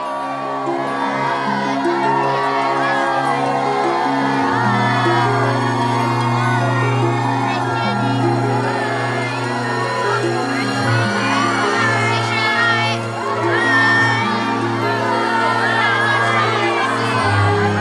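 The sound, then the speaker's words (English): A crowd of pupils cheers and shouts outside a school as French exchange students climb aboard a coach: a continuous dense mix of children's voices and whoops over a steady low tone. “A crowd of pupils have gathered by a coach to see off the French exchange students who are climbing aboard.”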